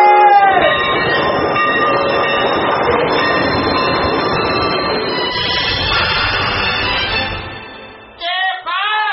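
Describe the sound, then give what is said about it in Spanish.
A train rumbles loudly along the railway, its wheels squealing and grinding in a steady, dense roar that holds for about eight seconds before easing off abruptly near the end. “¡Alto! ¡Alto! ¡Deténganse en ese tren!”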